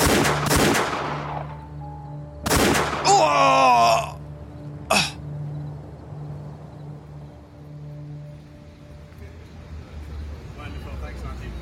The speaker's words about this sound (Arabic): الجندرمة عم تضرب رصاص، بسرعة لك بسرعة.